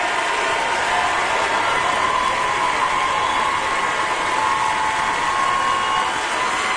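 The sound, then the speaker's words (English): Standing ovation for Randy Travis at the Grand Ole Opry: dense, loud applause mixed with crowd cheering, holding at a steady, unbroken roar from start to finish. “For those who may be listening around the world, that is the sound of a standing ovation for Randy Travis.”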